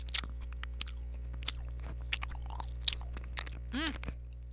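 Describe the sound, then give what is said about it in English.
Close-up chewing of a frozen fun-size Snickers bar: sharp, crisp crunches and wet mouth clicks scattered irregularly over a steady low hum, with no talking. “I'm eating a fun-size Snickers bar.”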